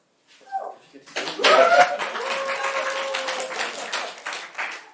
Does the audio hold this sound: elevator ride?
no